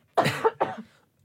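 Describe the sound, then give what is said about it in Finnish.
A person coughs twice in quick succession. The coughs are short and fairly soft, and the rest of the moment is quiet. “Nyt tulee yskäsy.”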